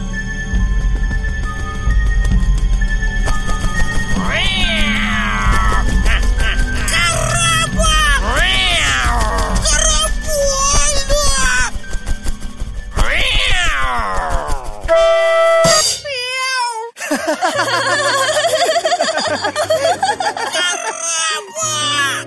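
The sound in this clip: Cat meowing and caterwauling in an animated scene: several long, loud, wavering yowls rise and fall in pitch over busy music, with a harsh squeal near the end.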